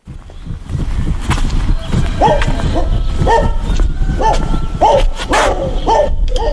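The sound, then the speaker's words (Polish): Dog barking in a farmyard: a steady run of short, sharp barks repeating at a fairly even pace over continuous rustling background noise. “Proszę bardzo, piesek nie gryzie”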